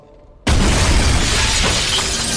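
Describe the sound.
A glass skylight smashes as someone crashes through it: a sudden, very loud burst of breaking glass that keeps going as a dense, sustained shower of crashing shards for about two seconds.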